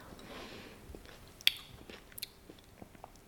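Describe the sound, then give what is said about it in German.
Someone eating soup at home makes faint mouth and eating noises: a few soft clicks and smacks and one sharper tick over a low background hiss. “Und irgendwie ist es mir gerade wichtig, aufzunehmen, wie ich gleichzeitig Suppe esse.”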